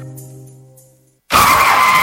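A car skids as the driver brakes too late and strikes a person while approaching a construction site. A fading low tonal hum gives way to brief silence, then a sudden loud, harsh screeching burst that holds to the end.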